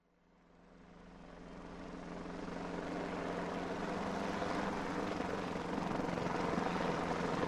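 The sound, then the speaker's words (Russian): A helicopter flies low over wooded hilltops, its rotor noise swelling from near silence into a steady, broad roar with a faint rhythmic blade chop. The sound keeps building throughout and is heard alone. “Низко, чуть ли не цепляя брюхом деревья на вершинах сопок, рассекая воздух лопастями, пролетел вертолет.”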